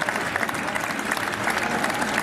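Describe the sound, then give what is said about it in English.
A crowd applauding and cheering a new Prime Minister, a dense, steady wash of many hands clapping that holds at an even level throughout without a clear start or end. “Here we go, Andy Burnham, the new Prime Minister, accepting the cheers.”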